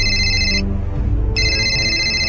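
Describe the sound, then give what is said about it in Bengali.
Electronic telephone ringing as someone calls her father, with two high, bright bursts separated by a short gap over a low, steady background. “Farin সাথে সাথে তার বাবাকে phone করল।”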